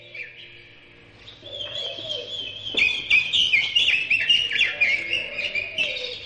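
Bird calls from a bird likened to a woodpecker: many high chirps and tweets, quiet at first and then a dense, busy stretch of overlapping calls over a steady low hum.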